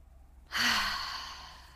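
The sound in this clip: A single deep breath during a guided breathing exercise: one long, breathy sigh that swells suddenly, then slowly fades over more than a second, with no talk around it.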